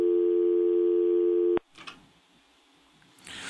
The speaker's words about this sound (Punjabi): ਤੁਹਾਡੀ ਕਾਲ ਡਿਸਕਨੈਕਟ ਹੋ ਗਈ